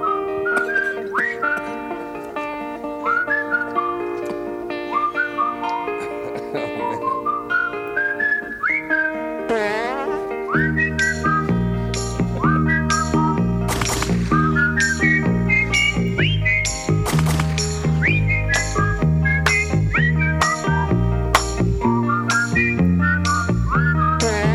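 A man whistles a long, continuous melody while he works, with clear, pure, shifting notes and quick runs of pitch that stay steady and fairly loud throughout.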